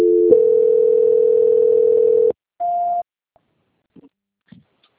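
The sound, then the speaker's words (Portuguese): Telephone tones while a call is being transferred: a steady tone holds for about two seconds, then a short, higher beep follows, with a few faint clicks afterward. “já estou transferindo a ligação do senhor”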